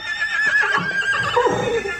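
Hardy working horses, tough rather than handsome and readied for a ride toward Valladolid, let out a long, wavering whinny that fills the whole two seconds on its own, with no talk.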